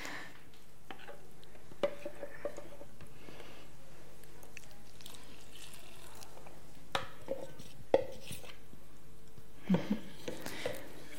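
Dough with a pinch of salt being kneaded by hand gives faint, sparse squishing and soft slapping sounds, a few scattered clusters of wet squelches over quiet background.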